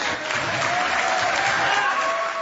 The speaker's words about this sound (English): Jerry Petruski, big applause line for the governor.